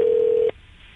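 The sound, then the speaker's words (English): A single telephone keypad dialing tone from a prank call, a steady mid-pitched beep holding for about half a second before cutting off to faint hiss. “That's the number I dialed on my phone.”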